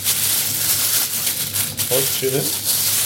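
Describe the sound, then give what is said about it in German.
Crinkling of the plastic packaging around minced pork (Mett) during preparation for Mett waffles in a kitchen. The crackly, rustling noise runs almost without a break and is fairly loud. “Das etwas geknistert. Das ist die Packung vom Mett.”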